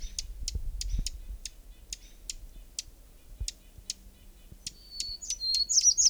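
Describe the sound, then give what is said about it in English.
A hermit warbler sings a long series of high, thin, evenly spaced chirping notes that end in a brighter, buzzier flourish, over faint low clicks and rustling. “Hermit Warbler right nearby.”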